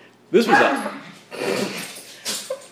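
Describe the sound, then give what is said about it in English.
A dog wrestling with a cat gives a few short, loud bursts of yips and whimpering growls, separated by brief pauses. “the dog and the cat are having a wrestling match right now”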